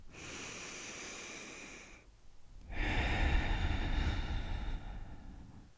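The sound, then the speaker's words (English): A deep breath drawn slowly in, then a brief pause before a longer, louder, airy exhale that trails off gradually. Both are soft and unaccompanied. “Let's take a deep breath in and a deep breath out.”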